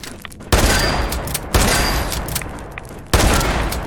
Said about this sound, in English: That is a strong ant. What? I'm gonna have to shotgun these things.